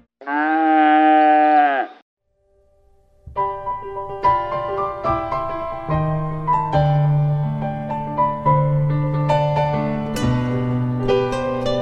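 A cow gives one long, loud, steady moo. After a short pause, calm instrumental music begins with layered sustained and plucked notes that carry on to the end.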